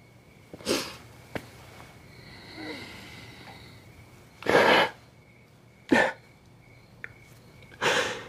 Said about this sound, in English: I'll smell it on the tree.